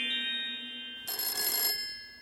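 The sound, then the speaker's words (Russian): An old-style telephone bell ringing. After steady sustained tones, it gives one bright, clattering burst of ringing that lasts just over half a second and then stops. “У меня зазвонил телефон.”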